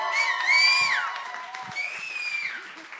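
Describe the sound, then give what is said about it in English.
A church audience claps, shouts and cheers to welcome a speaker. The dense crowd noise is sustained, with high, sliding whoops rising above it. “So we're going to clap, we're going to shout, we're going to cheer, we're going to get amen her until she doesn't know what to do anymore. So come on, why don't we give a big engaged welcome to Jessica”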